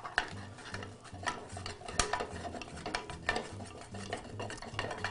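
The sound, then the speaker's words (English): An egg being stirred into cake batter in a bowl: faint, soft scraping and a few light clicks of a utensil, with no talking. “Uh, I like to add the eggs one at a time. It's just it's just a little easier.”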